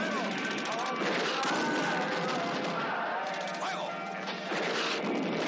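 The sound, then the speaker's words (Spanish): Explosion of a vehicle and a train wagon: a loud, continuous crashing roar of blast and debris with no clear breaks, sustained at full strength for the whole stretch. “Ahora explotan un vehículo y un vagón de tren.”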